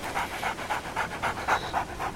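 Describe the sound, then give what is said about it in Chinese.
A dog sniffs around, giving a quick, steady run of short, breathy snuffs in an even rhythm, moderately loud and with no voices. “头上的犬还在嗅来嗅去。”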